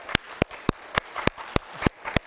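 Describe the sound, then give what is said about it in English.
Eight sharp, evenly spaced claps ring out from a church audience during a sermon, a steady rhythmic beat of crisp slaps with quiet gaps between them. “If that isn't worth clapping for, I don't know what is.”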